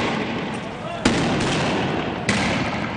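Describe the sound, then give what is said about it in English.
Tear gas launchers fired by troops at protesters in the West Bank: two sharp, abrupt pops roughly a second apart that cut through a loud, continuous wash of dense noise. “These Israeli troops are firing tear gas at Palestinian protesters on the West Bank.”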